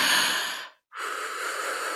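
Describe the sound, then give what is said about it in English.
A person breathing audibly: two long, airy, hissing breaths of similar loudness, split by a brief moment of silence, with no talking. “what I like to hear is my own breath.”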